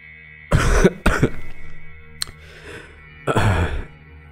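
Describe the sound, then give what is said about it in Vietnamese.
A narrator's voice imitates a man's persistent, hacking cough: three loud, rough bursts, with a brief faint catch between the second and third, against a quiet background. “Ông Lâm cười một tiếng thật lớn rồi lại ho sù sụ. Cơn ho dai dẳng phải mất một lúc”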